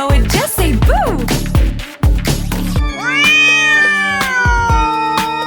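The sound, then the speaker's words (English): A black cat meowing in a children's song: a few bright, pitch-bending meows ring out over loud, bouncy music with a thumping beat, followed by sustained sung or played tones. “if you're a black cat and you know it, just say meow.”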